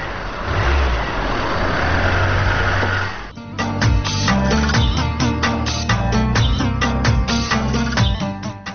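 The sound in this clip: A car engine runs with a broad, steady rumbling roar that holds at an even level for a few seconds before other rhythmic sounds take over.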